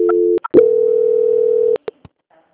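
A telephone line tone plays while a call-center agent transfers a caller to quality control: a short steady tone, a brief break with clicks, then a longer unbroken mid-pitched tone of about a second, ending in a few sharp clicks.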